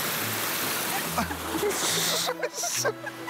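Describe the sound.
Water splashes in a stream while people search for amber, with a few short bursts of spray over steady flowing water and voices heard briefly.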